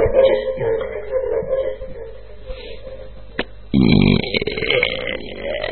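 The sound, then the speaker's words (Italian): Loud burping during an evening digestion-themed gag: long, drawn-out, rumbling belches that run almost continuously, with a harsher, louder stretch near the middle. “Stiamo facendo ruttazzi! La sagra della digestione, questa sera.”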